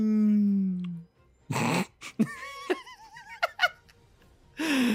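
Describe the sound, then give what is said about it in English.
Beluga whale calls: a string of squeaky, warbling whistles and chirps, separated by short breathy bursts, with a lower falling tone at the start. “I've never relaxed to beluga whale sounds before.”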